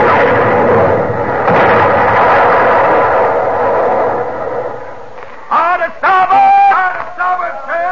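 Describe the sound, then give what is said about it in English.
Ship's cannons fire in a naval battle at sea, a rough, sustained booming roar lasting about five seconds, followed by men's voices speaking. “Mr. Quinn, you may fire at will. Fire!”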